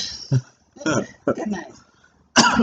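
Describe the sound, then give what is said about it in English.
Coughing in a few harsh, throaty bursts separated by short silences, the last one strongest and most abrupt. “Oh, my God. You're coughing again.”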